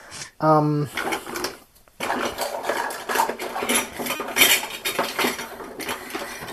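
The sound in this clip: Metal measuring spoons clatter and clink as someone rummages for a teaspoon: many quick, bright metallic rattles and taps in an irregular run, with a brief voice early on.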